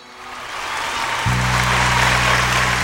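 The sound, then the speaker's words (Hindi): Audience applause swells from a soft start into steady, loud clapping. Partway through, a sustained low droning tone joins in and holds to the end. “आग्या बख्शो जोरदार ताली मार के”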